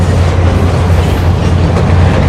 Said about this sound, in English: The train continues into the yard.